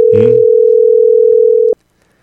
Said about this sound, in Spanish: Llamada aleatoria, a ver si nos contestan o no. A ver quién responde.